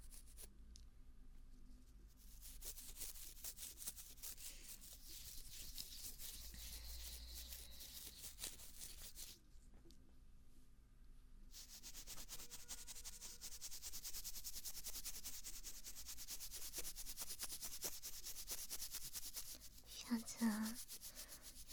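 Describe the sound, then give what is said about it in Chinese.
Teeth being brushed with a toothbrush: continuous soft, faint scrubbing strokes that stop briefly a couple of times before resuming. “撒谎骗我，我就连你的嘴巴一起刷掉。不是光刷牙齿，刷刷你这张嘴，张嘴就是一个谎，小骗子。”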